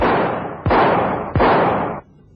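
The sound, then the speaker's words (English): Gunshots fired past a man's head come as a rapid series of loud, heavy blasts, each with a long rumbling tail that runs into the next, then stop abruptly. “Two past my head. The third nicked my hand. Nice shooting. Or maybe you didn't intend that shot so close.”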